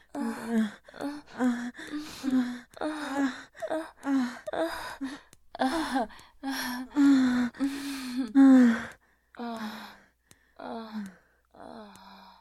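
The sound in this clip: A person gasps and pants to catch their breath after physical exertion, with many rapid, voiced breaths and moaning sounds in an irregular rhythm.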